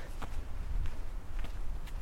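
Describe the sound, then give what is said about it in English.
Footsteps walking outdoors in November, a few soft, evenly spaced steps that stay faint throughout. “I've been walking around for a bit”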